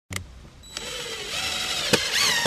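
A power drill whirs in short bursts as a park ranger drives screws through a wooden sign onto a bulletin board at a campground, its motor whine climbing in pitch during each run.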